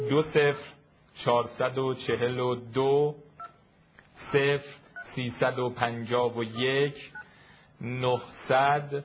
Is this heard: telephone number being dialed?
yes